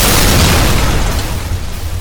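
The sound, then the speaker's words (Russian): A loud explosion on a minefield: one deep, powerful blast with a broad rumbling roar that slowly fades over about two seconds. “взрыв!”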